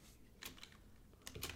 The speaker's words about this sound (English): So I typed in Nebraska Sooner.